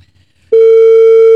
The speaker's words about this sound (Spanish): Está timbrando